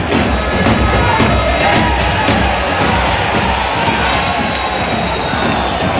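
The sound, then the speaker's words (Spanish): Football stadium crowd at the Estadio Colombino during a Recreativo versus Badajoz match with a large attendance, giving a dense, loud and continuous roar of many voices. “Buen ambiente, gran afluencia de público hoy aquí en el Colombino.”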